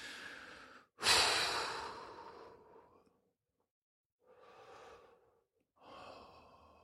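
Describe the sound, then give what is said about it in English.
Slow, quiet breaths from a person: a long, airy inhale and exhale swells and fades, followed after a pause by two softer breaths, with no talking. “So let's just take a couple breaths.”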